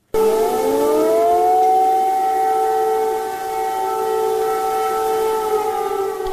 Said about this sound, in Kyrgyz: Биринчи декабрдын таңында баш кала Киевде ракеталык коркунуч тууралуу эскерткен сиреналар кайрадан жаңырды.